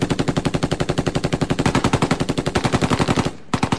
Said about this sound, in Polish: czołg strzela z 2 karabinów maszynowych